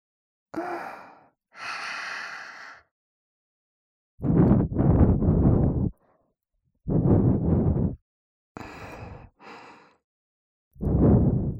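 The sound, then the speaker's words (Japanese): Gentle breath blown softly out in several airy puffs, each lasting about a second, with short silences between. The puffs are soft and breathy, and there is no talking. “弱ーく息をただ当てるくらいの感じでいいからね。 うん、わかった。それじゃあふうふうしていきますね。”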